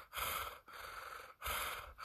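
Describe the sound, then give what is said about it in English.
A voice imitates an animal's heavy, purring breathing heard in the woods: a few long, rough, breathy rasps in a steady rhythm, each separated by a short pause, with no talk over them. “like heavy breathing that sounded like almost like a purr”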